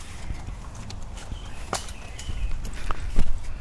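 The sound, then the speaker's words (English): Footsteps of someone walking through a house: a few soft, irregular steps over a steady background hiss, getting slightly louder toward the end. “You can go out just try to walk through the house.”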